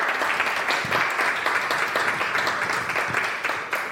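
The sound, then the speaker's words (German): Audience applause at a sketchnoting workshop: a dense patter of many hands clapping that holds at an even level for the whole stretch. “Einen kräftigen Applaus für die Jana.”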